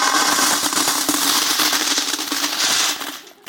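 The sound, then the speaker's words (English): Coins dropped into a copper offering box: a dense, loud, continuous metallic clatter and jingle that holds steady and then thins out near the end, with no voices. “There were only coins. And so when people went to give, it made a loud sound. So the more wealthy you were and the more you gave, the more distracting and noticeable the sound was. So it would sound something like this”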